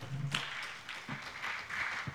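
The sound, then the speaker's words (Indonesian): Applause for the jury panel at a competition's semifinal event: a steady, even wash of clapping that holds at moderate loudness for about two seconds, with no clear pauses. “Beri tepuk tangan kepada semua para dewan juri.”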